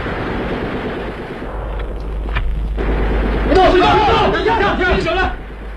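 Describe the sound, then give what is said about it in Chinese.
Gunshots crackle through a loud, dense din as a band of rioters is wiped out, with shouting voices rising over the firing in the second half. “巴洛托杰的酥油火把和枪声宣告的却是这批暴乱分子的全部覆灭。”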